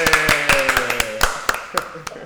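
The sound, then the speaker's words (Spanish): Applause for a football manager: a handful of sharp, irregular hand claps, some louder than others, over a faint sustained tonal background. “Así que un aplauso para Ten Hag. Creo que es importante.”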